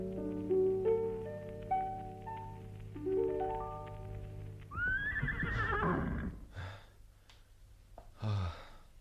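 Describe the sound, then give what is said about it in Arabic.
A horse whinnies in a long, high, wavering neigh that follows a short melody, then gives a couple of breathy snorts; no one speaks. “يلا اما اقوم اركب حصاني واتوكل على اللي خلقني ونشاني.”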